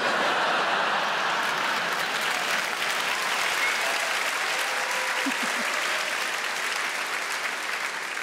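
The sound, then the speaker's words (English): Sustained audience clapping at a live show, a broad, even roar of many hands that holds steady and fairly loud for several seconds, with no clear break or pause. “And from the clapping, I can tell I'm not the only one.”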